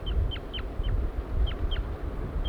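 A male bird gives flight calls as it leaves the nest: about seven short, high, downward-sweeping chirps at irregular intervals over a constant low rumble.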